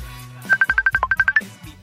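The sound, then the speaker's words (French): A telephone rings for a transatlantic call as a rapid burst of short, evenly spaced electronic tone pulses, about a dozen in quick succession. A low hum sits beneath the pulses and continues faintly before and after them. “ce n'est pas facile de s'appeler outre-Atlantique, dis donc, à travers l'Atlantique.”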